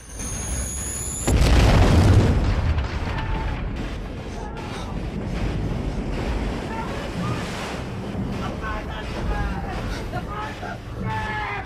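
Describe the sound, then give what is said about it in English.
A ship under attack, with an anti-aircraft gun exploding, lets off a loud boom, then water rushes and surges into the flooded hold. The roar stays heavy, and the water churning continues steadily after the blast. “Water bursts in and there's sudden suffocating darkness. Clinging to a ballast weight, Gibson watches an anti-aircraft gun explode in a plume of fire.”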